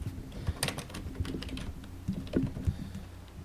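Typing on a computer keyboard: many quick, light key clicks in an irregular rhythm, fairly faint, with no talk over them.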